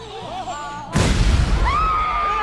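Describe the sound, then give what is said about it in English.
A bomb hidden in a cake goes off in one sudden, loud, deep blast. Voices are heard just before it, and a rumbling roar lingers afterwards while a voice cries out. “There's a bomb in the cake. Don't worry. I used to be a bomb guy. Everyone stand back!”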